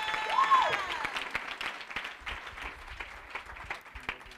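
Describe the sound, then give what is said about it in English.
An audience applauds to welcome a speaker at a church conference session, steady clapping from many hands with a brief cheer near the start, gradually thinning out. “Let's give it up for her.”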